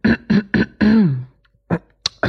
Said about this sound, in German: So räuspern, ne?